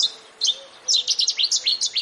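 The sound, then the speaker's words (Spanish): Birds sing along a city river in quick, high-pitched chirps and short trills, with a brief pause before a dense run of notes. “Ecologistas en Acción invitan a quien quiera a recorrer un trecho de Madrid Río para identificar, ver y escuchar, por ejemplo, cormoranes o gallinetas o al ruiseñor bastardo.”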